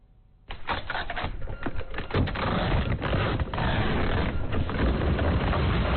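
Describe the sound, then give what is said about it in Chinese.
A printer prints parcel shipping labels in an e-commerce workshop. After a brief quiet moment, a loud, steady mechanical rattling buzz starts and continues without a break. “海燕对着电脑里的下单记录一张张打印快递单。”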